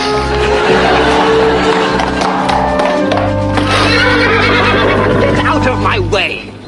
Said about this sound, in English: You'll be needing someone to tend your horse, then.